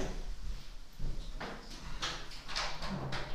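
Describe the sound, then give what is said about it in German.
A solid double-rebated interior door being pushed shut, a few muffled knocks and sliding thumps at moderate loudness. “Ich mach mal kurz die Tür zu.”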